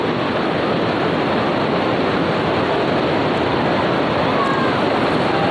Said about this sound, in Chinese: 眼前的这一条银链啊，它把钱塘江一分为二。我们看到潮水逐渐接近我们老盐仓的大坝了。